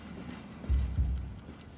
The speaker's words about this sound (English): For context, that ticking in the background is a bomb.